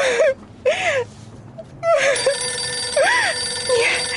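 A telephone rings in a few short, warbling electronic bursts, each tone arching up and back down in pitch, separated by brief gaps, with a steady tonal hum beneath the later rings.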